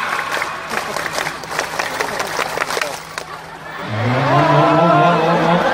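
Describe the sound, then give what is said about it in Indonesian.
A group performs the Indonesian scout clap routine, a run of sharp, rhythmic hand claps lasting a few seconds, followed by loud, sustained group voices. “Tepuk satu. Tepuk dua. Tepuk tiga. Tepuk pramuka.”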